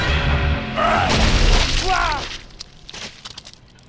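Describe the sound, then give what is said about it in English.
A body explodes into goop with a loud, wet burst and sustained blast, then smaller splattering cracks and drips trail off more quietly. “Dude exploded like a cheap garbage bag full of chowder. I freaking liquefied him.”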